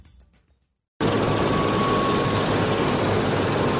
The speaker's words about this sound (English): That's the sound of a helicopter taking off from Esbjerg Airport on Danish Jutland Peninsula's west coast.